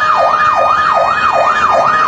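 A fire engine siren wails as fire trucks respond to a fire at a kindergarten. The steady, loud tone sweeps up and down in a quick, even cycle, about five times, with no voices.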